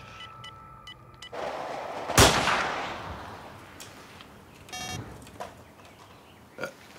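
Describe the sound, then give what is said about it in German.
A single rifle shot during a wild boar hunt gives one sharp, loud crack that decays over about a second. A few fainter clicks and knocks follow, and no voices are heard. “Das Gewehr ist schlecht eingeschossen. Das schießt ja, wohin es will.”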